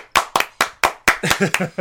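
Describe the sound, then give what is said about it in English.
People clapping their hands together in a steady, evenly spaced series of sharp, loud claps. Voices join in over the last few claps. “Everybody clap your hands.”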